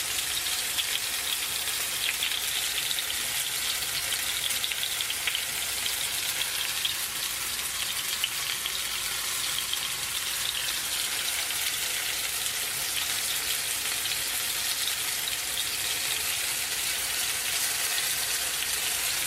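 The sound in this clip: Food frying in a small pan on the stove gives a steady, even sizzle. The crackling hiss runs continuously and alone at a constant level, with no distinct pops standing out.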